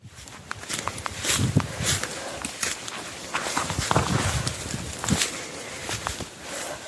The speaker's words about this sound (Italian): Stiamo camminando nella foresta polacca. Il confine con la Bielorussia è lontano meno di 2 chilometri